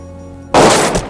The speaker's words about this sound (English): Kersey shoots Nozaki through the drawing board.